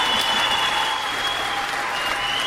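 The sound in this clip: Live studio audience applauding: a dense, steady wash of clapping that holds at even loudness from start to finish.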